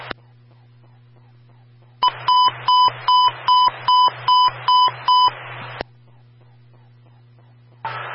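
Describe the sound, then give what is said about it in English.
Eight evenly spaced, high electronic beeps from an emergency transmission phone test on a fire control radio channel. The beeps come in a quick regular rhythm, with open radio hiss and a low steady hum before and after. “Please stand by for the emergency transmission phone test.”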